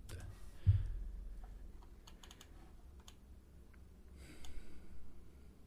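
Typing a search query on a computer keyboard: a soft thump, then a few short bursts of faint key clicks scattered across the quiet stretch.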